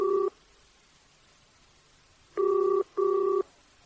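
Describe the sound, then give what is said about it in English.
Telephone ringing tone heard on a call from a telephone booth: a steady, loud electronic buzz in a double-ring pattern. A brief burst comes first, then a pause, then a pair of short pulses close together. “I managed to avoid the dead stare while I dialed a number and listened to it ring and ring and ring.”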